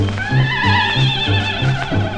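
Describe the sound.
A horse whinnies with a high, wavering, falling cry over a steady rhythm of low thumps, at the opening of a 1940s Italian song about a trotting horse.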